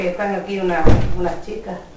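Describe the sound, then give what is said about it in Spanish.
A door is shut with a single dull thud in the middle, under people talking. “Cierra, trinca la puerta.”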